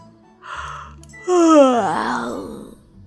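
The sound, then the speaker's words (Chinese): A performed yawn in an audio drama: a short breathy intake, then a drawn-out voiced sigh whose pitch slides downward before trailing off into breath. “小四子边说边打了个哈欠”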